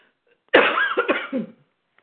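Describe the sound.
A woman clears her throat harshly, with a few rough coughing pulses inside one burst about a second long, framed by near silence.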